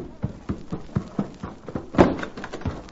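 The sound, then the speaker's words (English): A pony gallops in and halts: a steady run of rhythmic hoof thuds about four per second, with a louder, sharper burst near the end, no talk. “suddenly saw something which caused him to rake his spurs over his pony's flanks and come racing home.”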